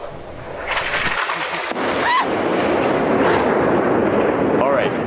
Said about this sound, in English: a clip of you live on the air on October 7th at the moment when Israel bombed a tower behind you in Gaza City.